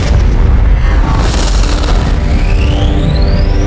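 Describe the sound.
Spaceship weapons firing and an explosion in a science-fiction drama: a loud, continuous booming roar fills the whole stretch, and a high whining tone climbs steadily in pitch toward the end.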